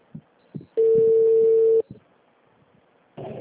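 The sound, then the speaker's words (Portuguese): Telephone line tones while a call to a health-plan service line is transferred: a steady, loud tone lasting about a second, with faint blips before and after, and another tone starting near the end. “Estamos transferindo sua ligação.”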